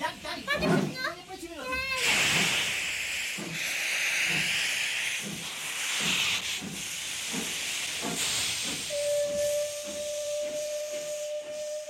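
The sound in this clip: A steam locomotive hisses loudly and continuously from about two seconds in, while children's voices chatter over it; near the end a steady, sustained whistle-like tone sounds alongside the hiss.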